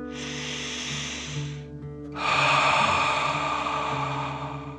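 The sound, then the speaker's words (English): Slow breathing in through the nose and out through the mouth as a calming dragon-breath exercise: a soft hissing inhale, a brief pause, then a longer, louder, airy exhale. “feel the air coming in through your nose to fill your tummy with fresh air, and then breathe out, pretending fire is coming out of your mouth. Ready? Breathe in and out.”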